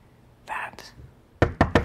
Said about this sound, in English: knocks at a door.